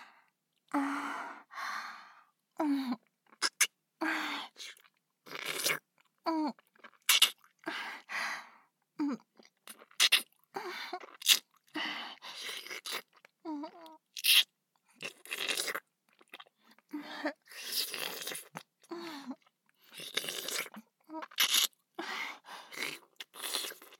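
Something crunchy being bitten and chewed, with many sharp crackling bursts in an uneven rhythm and breaths and sighs between the bites.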